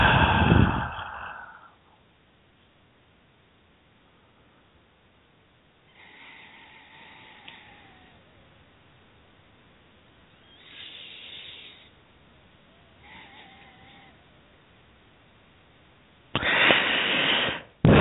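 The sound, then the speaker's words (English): Slow breathing during a guided meditation: a few soft, airy breaths separated by long quiet pauses, with no talk. “And we just breathe here for a moment.”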